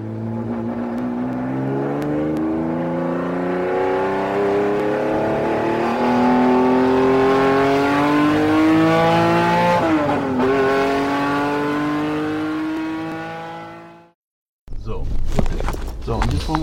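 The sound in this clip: A car engine hums steadily as the clutch is slowly released to pull away during a driving lesson. The tone rises gently before cutting off abruptly, followed by a brief burst of other noise.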